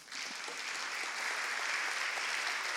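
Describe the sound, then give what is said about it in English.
Audience applause welcoming a speaker, a dense steady wash of clapping that swells slightly and holds to the end. “Would you give a very warm welcome to Glyn Harrison?”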